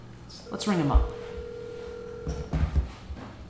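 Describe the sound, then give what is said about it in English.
A telephone line tone, heard while a call is placed, sweeps downward and then holds as a steady hum for about two seconds before voices begin. “Let's ring him up. He's not going to pick up.”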